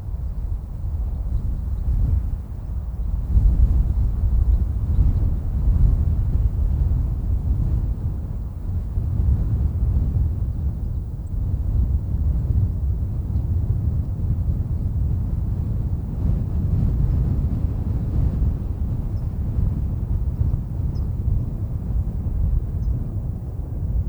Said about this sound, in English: drive the Trail Ridge Road up to the park's roof and stop and listen to the sounds. The wind really is amazing up there, as the following audio cut from the sound and light ecology team at Colorado State University discovered.